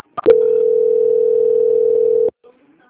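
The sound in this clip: A telephone call being transferred: a couple of quick clicks, then a steady, mid-pitched dial tone that holds for about two seconds and cuts off sharply, followed by a faint click.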